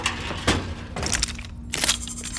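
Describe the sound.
Pistol shots: a few sharp, loud cracks spaced unevenly, each breaking off abruptly.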